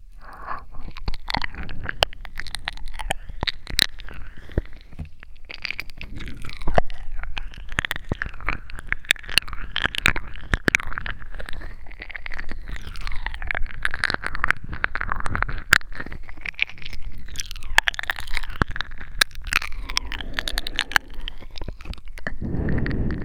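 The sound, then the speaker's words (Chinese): Crunchy eating and chewing, with many crisp, rapid crunches and bites following one another steadily throughout, fairly even in loudness from start to finish. “好好吃啊。主人，怎么吃都吃不够呢？”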